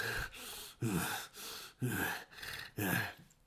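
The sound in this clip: A voice imitates heavy breathing with a cold: a steady rhythm of loud, rasping gasps alternating with softer breaths, with no talk.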